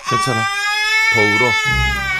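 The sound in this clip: A child cries loudly, with drawn-out, wavering, high-pitched wails broken into a few sobbing bursts, voiced and strained, filling the whole stretch.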